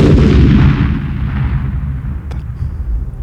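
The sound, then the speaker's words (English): A telephone explodes with a loud, deep boom at the start, then a long, low rumble that slowly fades away, with no talking over it. “How unusual. I've never seen a telephone explode before.”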